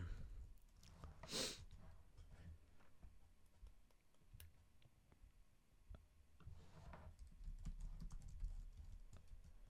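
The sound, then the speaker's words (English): Someone types on a computer keyboard, making faint, scattered clicks and small runs of keystrokes, with a few soft breathy noises among them. “Dude, I cannot fucking type today.”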